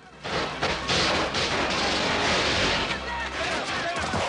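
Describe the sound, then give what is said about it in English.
Gunfire as a gang shoots through gates: loud, dense bursts of many shots overlap into a sustained crackling barrage that continues almost unbroken after a brief quieter start. “The pagans pull guns and open fire through the gates.”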